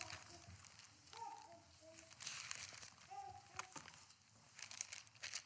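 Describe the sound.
Bible pages being turned to Philippians give faint crinkling paper rustles, several soft flicks scattered under a speaking voice.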